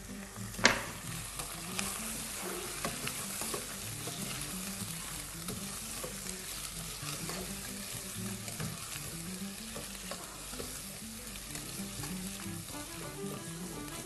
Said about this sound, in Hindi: अदरक लहसुन के मैं ऐड कर रहा हूँ और इसको हम करेंगे मिक्स अच्छे तरीके से। और उसी के साथ ये जो चिकन हमने काटी थी ये ऐड कर देते हैं।